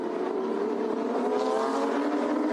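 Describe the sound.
A racing car's engine drones on a circuit before a race, holding a steady, loud, rasping tone throughout with no talk over it.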